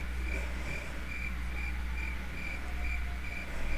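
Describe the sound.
Crickets chirping as a sound effect: a faint, steady series of high, shrill chirps repeating at an even rhythm over a low background hum.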